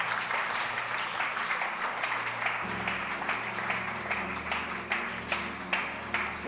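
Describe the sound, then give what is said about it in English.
Audience clapping hands for people at a gathering: a fairly faint, continuous patter of claps throughout, with a steady tonal sound joining about halfway through. “Clap your hands for them.”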